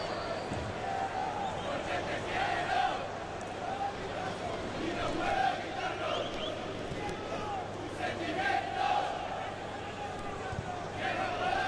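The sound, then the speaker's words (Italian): Football supporters chanting in a stadium at a Roma versus Real Madrid match: a dense, steady roar of massed voices with recurring sung phrases swelling and fading throughout. “Cercando di capire se sono i tifosi della Roma o quelli della Real Madrid, quelli che stanno cantando. Credo, sembrava spagnolo.”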